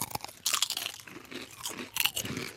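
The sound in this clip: Crunching and chewing of Doritos Sweet Chili Pepper flavor chips, a few crisp bites followed by faint, uneven mastication noises, quiet overall.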